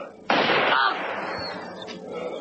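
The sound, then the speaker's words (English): A single gunshot in an audio drama cracks out sharply and then rings off in a fading tail. “Shoot her, man! Now, Paul, now!”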